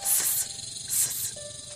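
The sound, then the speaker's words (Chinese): Hissing from a snake flicking its tongue: two short, airy bursts of high hiss, separated by a brief pause. Both are fairly quiet and stand alone, with no talk. “只吐了吐我的蛇信子，嘶嘶嘶”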